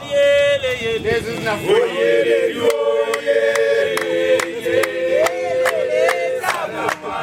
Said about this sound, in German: Männer in traditioneller Kleidung begrüßen uns singend.